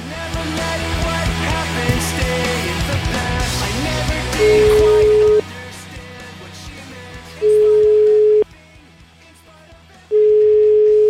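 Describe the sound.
Ringing tones sound while a telephone call is placed: three steady, evenly spaced beeps of about a second each, the first coming over loud background noise and talk, the later ones clearer.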